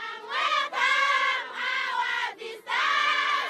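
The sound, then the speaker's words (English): A large group of girls singing loudly together to welcome local officials in Malawi, sustained voiced phrases in unison broken by a few brief pauses. “A large group of girls sing and dance to welcome local officials.”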